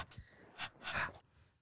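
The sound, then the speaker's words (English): Breathing straight into a microphone: a few soft, breathy puffs and exhales, quiet and airy, with short gaps between them. “The breath from the microphone.”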